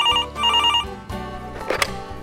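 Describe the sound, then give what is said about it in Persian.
An electronic telephone rings at home with a rapid warbling trill in two bursts, followed by a short mix of other tones and sounds. “همون لحظه من کنار تلفن نشسته بودم و انتظار میکشیدم که آقای واشنگتن از دیترویت با هم تماس گرفت.”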